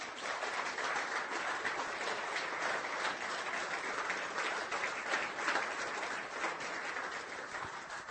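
Steady applause from an audience welcoming a theologian to the stage: dense, continuous clapping that holds an even, fairly loud level throughout, with no voices.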